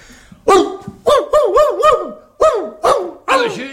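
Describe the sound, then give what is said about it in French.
A man's voice imitates a barking dog: a series of loud, yelping vocal barks, some quick and bunched together, with bouncing pitch and no other sounds. “J'ai une grosse commande de chiens aboyeurs et je voudrais approcher le plus près possible de la vérité. Comme ceci?”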